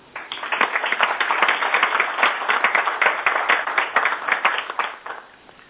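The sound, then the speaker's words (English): Applause from a council meeting as a resolution passes by acclamation: steady, dense clapping that holds for several seconds and then tapers off. “if I might ask that we pass that resolution by acclamation”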